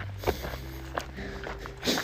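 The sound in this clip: A few footsteps of a person walking a long-distance route between the towns of Oracle and Superior. The soft, separate steps fall at an uneven pace over low background noise.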